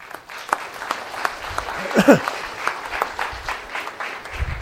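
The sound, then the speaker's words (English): Audience applause welcomes a speaker to the stage, a dense, steady wash of clapping that swells slightly near the middle and carries on throughout. “So without any further delay, let's give Paul a warm welcome.”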